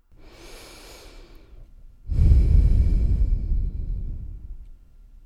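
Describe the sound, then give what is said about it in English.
Slow breathing of a person lying on their back on the floor during a relaxation exercise: a soft, airy inhale, then a brief pause and a louder, longer exhale that fades gradually, with no talk. “breathe. Just breathe.”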